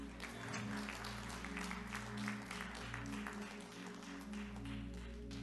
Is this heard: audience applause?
yes